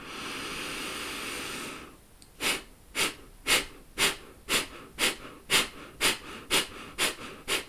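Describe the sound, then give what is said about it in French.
Forced breathing exercise with the pelvic floor engaged and the navel drawn in: after a steady hiss, eleven sharp, rhythmic exhalations through the nose come about twice per second, each a brief breathy puff. “Inspire aux trois quarts et expiration forcée. On n'oublie pas d'activer Mula Bandha, le plancher pelvien ici. Aspire ton nombril à l'expiration.”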